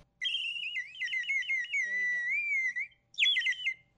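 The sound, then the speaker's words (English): A handmade clay bird whistle from Cameroon, filled with water and blown, gives a bright, high warbling trill with a wavering, bubbling pitch. One long blow is followed by a brief pause and then a short second burst. “I brought along a bird whistle that was made in Cameroon. We have a lot of musical instruments, and the bird whistle is one of them. You put water in it, and when you blow it, it sounds like this.”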